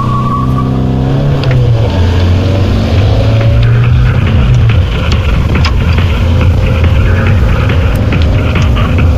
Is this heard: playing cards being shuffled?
no